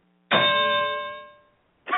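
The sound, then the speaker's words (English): A quiz show correct-answer bell rings once with a bright, clear tone that fades slowly over about a second, and a second ring begins just at the end. “Yes, that's right. We have a correct bell.”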